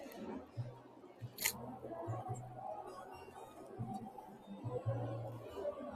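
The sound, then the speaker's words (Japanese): A single crisp camera shutter click as a photo is taken at the Femtech Tokyo event, heard briefly over background chatter and a low steady hum. “ちょっと今ね、写真を撮りました。もう一枚撮ろうかな。”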